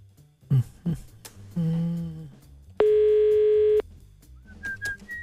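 Telephone ringing tone during a live prank call that goes unanswered: a single steady ring of about a second, set among faint murmurs and small sounds before and after it.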